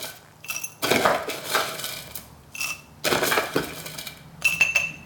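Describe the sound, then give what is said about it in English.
Crushed ice is spooned into a glass for a keto mojito. A few loud bursts of clinking and rattling are separated by short pauses, with smaller clinks between them. “And then get some, and then get some crushed ice. Put loads of that in.”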